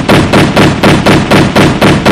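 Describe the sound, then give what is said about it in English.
A rapid, evenly spaced burst of loud gunshots, about eight or nine sharp cracks fired in quick, regular succession with no pause. “Shots fired.”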